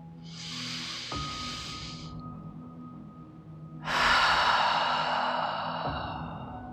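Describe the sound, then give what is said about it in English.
A deep cleansing breath taken during a guided meditation: two long, airy breaths, the first softer and the second louder and longer as it slowly fades, with a faint steady tone underneath. “I'd like to invite you to take a deep cleansing breath.”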